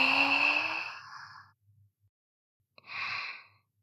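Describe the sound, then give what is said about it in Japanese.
A slow, deep breath drawn in during a guided relaxation breathing exercise. A long, airy inhale lasts about a second and a half, then silence, then a shorter breath. “心地よく深呼吸。吸って、”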